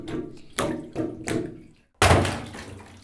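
Water swishing in river-themed surroundings, with a few rising surges followed by a sudden, louder rush that slowly fades; no talk.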